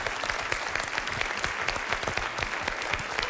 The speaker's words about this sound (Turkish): Yine alkışlar başladı. Arkadaşımıza alkışlıyoruz.